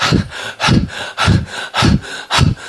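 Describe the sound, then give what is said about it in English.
A voice imitates panting, as if a character is out of breath after running: five breathy gasps in a quick, even rhythm, each loud and rough, with short gaps between them. “panting, "But you are totally out of breath.”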